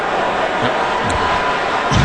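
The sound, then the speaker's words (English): Hockey crowd booing the referee during a goal review, a steady, dense roar of many voices that stays loud throughout with no clear breaks. “He doesn't know that they're booing him.”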